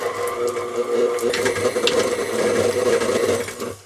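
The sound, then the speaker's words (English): Electric stand mixer with a paddle attachment beating softened cream cheese for cheesecake: a steady, loud motor whir with grinding texture that runs continuously, then cuts off abruptly at the end. “Soften your cream cheese beforehand, just let it sit out on the counter for a while, put it in your mixer with the paddle, and go to town.”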